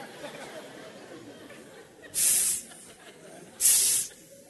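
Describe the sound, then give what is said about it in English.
A voice imitates a snake's hiss in two short, loud, breathy bursts about a second and a half apart, over a low background murmur. “Put your hand like this. Now make it like a teeth. It's like a snake.”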